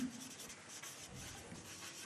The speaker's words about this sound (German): also durch Training könnte man sagen, ich schreibe jetzt hier mal Training hin